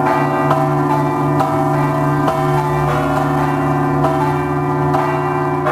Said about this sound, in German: Sie ist unübersehbar und weisen ja schon die Glocken dahin, die Sie im Hintergrund hören, zur St. John's Cathedral.